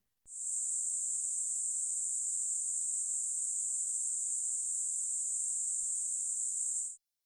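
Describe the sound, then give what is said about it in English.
An octave band of high-pitched random noise hisses steadily and alone for about six and a half seconds, starting and stopping abruptly at a constant, moderate level. “This octave band of random noise centered on 8,000 hertz sounds like this.”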